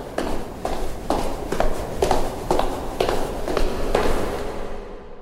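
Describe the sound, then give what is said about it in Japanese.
Footsteps run down a station stairway in a quick, even series of hard thumping steps at a steady pace. They are fairly loud and heard alone. “私は高輪口の階段を駆け下りていったんです”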